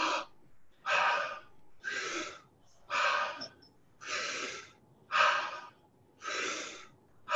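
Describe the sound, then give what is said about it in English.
Deep breathing in and out, a steady run of strong, breathy rushes of air repeating about once per second at even volume, with no talk. “So I'd like you to breathe in real strongly, okay, 3 seconds, and then breathe out 3 seconds.”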